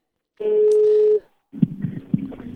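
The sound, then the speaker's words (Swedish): A telephone tone sounds while calling someone back. A single steady, even tone holds for nearly a second, then breaks off. After a short pause comes a stretch of rougher, irregular line noise with a few sharper bumps. “Vi ska ta och ringa upp honom igen.”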